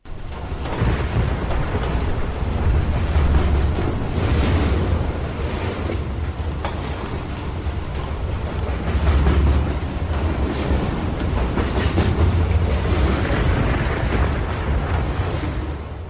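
A train running on rails: a steady, loud rumble and rattle of wheels on track that fills the whole stretch, swelling slightly at times, with no voices.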